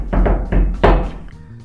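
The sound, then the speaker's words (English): Hairy knuckles rap a crisp drum-style paradiddle on the door of a house: a few dull, thudding knocks in a quick, uneven rhythm, loud and with no other sound. “Applying his hairy knuckles to the door, he laid down a crisp paradiddle.”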